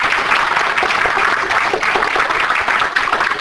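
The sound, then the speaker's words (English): An audience gives a round of applause after a presentation at a members' meeting. The clapping is loud, dense and even throughout, with no voices rising above it. “Let's give a round of applause for Joe.”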